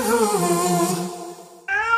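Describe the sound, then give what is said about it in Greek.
A cat meows in a long, wavering, fairly loud cry with shifting pitch, then a pause and a brief second meow. “Ο λόγος που ζηλεύει τόσο η γάτα σου είσαι εσύ.”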